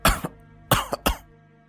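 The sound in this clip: A man, an old teacher, coughs in a few harsh, rough bursts. A first cough is followed after a pause by a tight cluster of quick coughs, with no talk.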